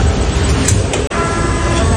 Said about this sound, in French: c'est le bruit des robots de l'usine automobile d'où sortent les Peugeot 3008